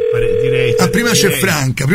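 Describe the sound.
A steady telephone dial tone sounds while a call is being placed, one unbroken mid-pitched hum lasting the whole moment, with a voice talking over it.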